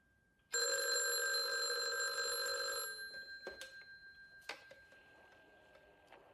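A telephone rings in one long, bright metallic peal that holds steady for about two seconds, then fades into a decaying rattle with a few light clicks, and no voices.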